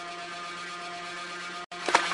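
A Russian-made milk cream separator whirs as it spins milk at high speed to split off the cream. It gives a faint, steady hum with tonal overtones, then cuts out briefly and returns with a short louder surge.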